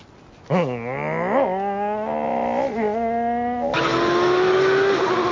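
Racing car engine from a racing video game, revving in repeated rising and falling pitch sweeps, then turning harsher with a steady whine and tire noise toward the end. No talk is heard.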